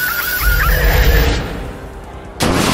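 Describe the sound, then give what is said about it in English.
Diabolical Fire, a ghost-and-flame attack effect from a turn-based video game battle: a roaring, hissing blast over deep rumble with wavering tones that fades, then an abrupt loud noisy burst at the end. “Choose a move. Diabolical Fire. Ghost and Flame. Special effect points 50. Mortrex used Diabolical Fire.”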